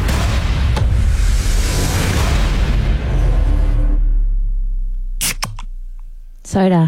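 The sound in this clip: A drink can, beer or soda, is opened during a guessing game. Its broad, fizzing hiss fades away, and a couple of sharp, cracking pops sound.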